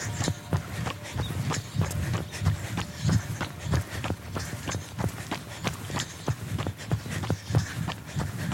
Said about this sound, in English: Okay, ready? Another stride. In 3, 2, and 1.